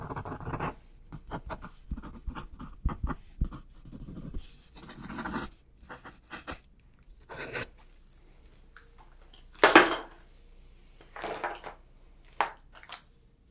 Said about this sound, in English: Okay, you know what? I'll write some stuff down.